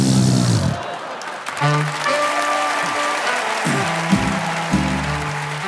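Audience applause after the closing joke of a stand-up comedy set; sustained clapping holds at a steady level through the whole stretch.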